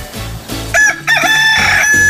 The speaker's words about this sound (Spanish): qué bonito canta mi gallo, ¿a poco no? Bien bonitío.